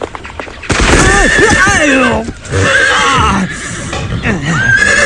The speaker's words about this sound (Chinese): 来送情报的大麻子骑着马朝这边赶来了，栽进了郭迪海和黑妮儿事先挖好的坑里。